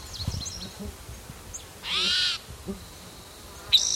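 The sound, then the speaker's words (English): A male bird calls: a sustained, bright, harmonic-rich note of about half a second rises out of low background rumble, then a short sharp call follows near the end, with faint chirps earlier. “Bird that's calling, I think it's a different male.”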